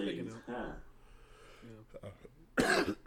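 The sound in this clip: A cough, one harsh burst of noise near the end that follows a stretch of casual conversation. It is loud and abrupt, and louder than the talking before it.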